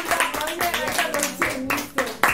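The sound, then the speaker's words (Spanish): A few scattered hand claps applauding a correct answer in a music quiz, coming in short bursts while a voice talks over them. “Muy bien, un aplauso.”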